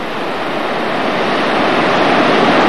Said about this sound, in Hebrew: נשפך אל בריכת האמרלד, ויש פה הרבה הרבה יותר מים.